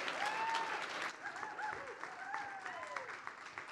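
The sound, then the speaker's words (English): Steady audience applause as a speaker's brother is welcomed onto the stage, a dense wash of clapping lasting throughout, with a few high whistles rising above it. “Would you welcome him? Stand up with me. Give him a hand, if you would.”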